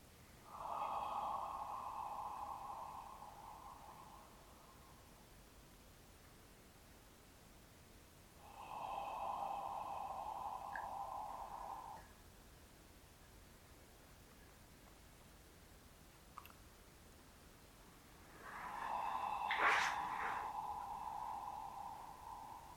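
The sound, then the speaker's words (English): Slow breaths flow through an open, relaxed throat as three long, soft, breathy hisses of several seconds each, separated by stretches of near silence. “take an out-breath, a long out-breath, feeling the breath flowing over the vocal cords and over through the throat.”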